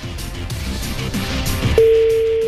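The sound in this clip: A telephone line tone on a call from a withheld, private number that goes unanswered: a muffled, noisy stretch gives way to a steady, clear mid-pitched tone that holds unbroken through the final second.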